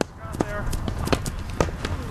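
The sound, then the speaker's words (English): Players run a hurling drill in helmets, swinging wooden hurleys. Many sharp, irregular wooden clacks and thumping footsteps mix with brief shouted voices. “That's the sound of players running a drill, practicing the traditional Irish sport of hurling. Players are armed with just a helmet and a wooden stick called a hurley.”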